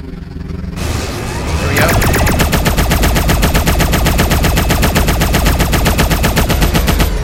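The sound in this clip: Automatic gunfire from a turret in a video game: after a short quieter lead-in, a dense, rapid stream of shots starts and runs loud and steady without pause to the end.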